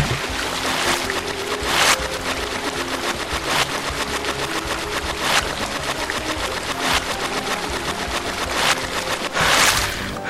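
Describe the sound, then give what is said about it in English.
Swimming strokes in a video game as a character moves underwater toward a chest, rhythmic bursts of splashing water repeating every second or two over a constant churning wash. “You can hit the up arrow to come back up and rest, and your health will regenerate. Now I'm gonna swim to the chest.”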